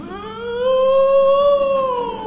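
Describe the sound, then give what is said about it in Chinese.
A single long wolf howl, loud and tonal, rising slowly in pitch, holding, then gently sinking over about two seconds. “狼啊”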